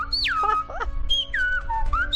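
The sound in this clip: Silbo Gomero whistled language: a few shrill whistled phrases with sweeping pitch glides, including a long fall early on and rapid up-and-down inflections, heard alone and clearly.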